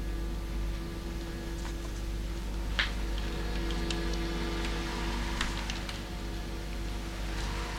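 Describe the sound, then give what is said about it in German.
Steady soft rain gives a faint, even hiss with a few scattered light drop ticks throughout, and no voices. “Der Regen kann nicht schaden.”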